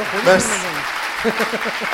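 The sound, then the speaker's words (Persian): Audience applause honouring a speaker at a talk: a steady, noisy patter of many hands clapping at once, with a voice speaking over the applause. “یه دست به افتخار آقای تیمورو بزنن.”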